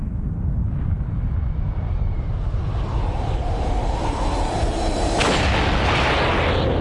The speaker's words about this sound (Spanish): El 12 de agosto los soviéticos también detonan una bomba de hidrógeno